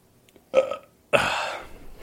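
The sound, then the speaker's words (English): A person hiccups once, a short sharp gulp, and then lets out a longer, rough burp that trails off. The two sounds are separate and clear against near silence. “That was a hiccup and a burp, man.”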